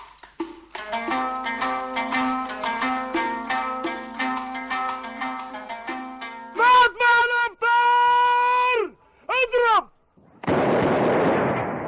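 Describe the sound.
An iftar cannon fires at sunset during Ramadan: one loud, broad booming blast near the end that roars on for about a second. Before it come sustained, tonal chanted vocal phrases.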